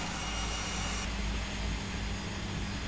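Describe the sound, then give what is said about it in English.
Washing machine on a 900 rpm spin during a 30-degree quick wash, giving a loud, steady whirring drone over a constant low rumble with no talk. “We've put it on a 900 revolution spin. And obviously we've used the quick wash because that means it takes 41 minutes to wash and not an hour and a quarter.”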